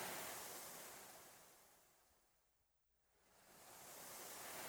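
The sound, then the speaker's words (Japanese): Ocean waves wash softly in a slow swell: the rushing surf fades to near silence around the middle, then builds again into another gentle surge, used as a backdrop for a guided breathing relaxation. “波の音に合わせて。”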